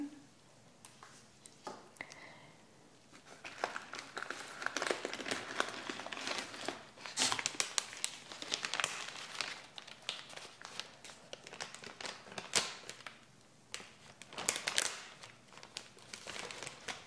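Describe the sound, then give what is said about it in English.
Grana Padano cheese being grated for veggie pasta, with many dry rasping, crinkly scraping strokes in an irregular rhythm that rise and fall in loudness across the whole stretch. “And this is Granada Padano cheese. We're going to be grating it.”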